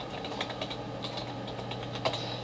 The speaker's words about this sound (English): He had a go at my keyboard as well. Yeah, here's a nice keyboard.